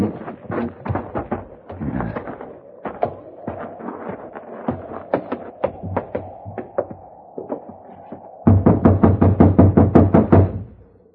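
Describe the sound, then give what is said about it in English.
Knuckles rap on a locked door: many sharp knocks in uneven bursts, then a louder, faster run of about a dozen raps to finish. “No, it's locked. You'll just have to keep knocking till he wakes up.”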